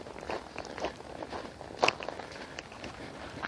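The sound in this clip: Footsteps walk carefully over patchy, partly melted snow, a steady series of soft crunching steps with one sharper, louder step near the middle, and no talk.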